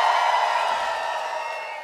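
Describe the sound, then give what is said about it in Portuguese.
Crowd shouting at a pagode concert, a sustained mass roar of many voices that holds steady and slowly tapers off. “Cadê o grito dos pagodeiros?”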